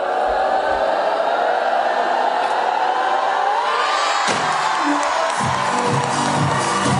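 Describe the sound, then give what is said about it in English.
Cheering from a football team and crowd as the trophy is lifted after a successful Euros title defence: a dense, continuous roar of shouts and whoops at a steady, loud level throughout. “that is the sound of the ecstatic Lionesses team lifting their latest trophy.”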